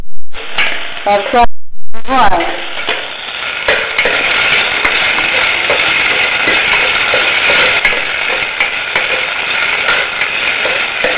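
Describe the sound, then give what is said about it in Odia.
Spices frying in a hot pan with ginger, garlic and cumin: a bright, steady sizzling hiss takes over after a few seconds of talk and carries on evenly to the end. “ମସଲା ଭଜା ହଉଛି, ଏଠି ପଡିବ ଲଙ୍କା।”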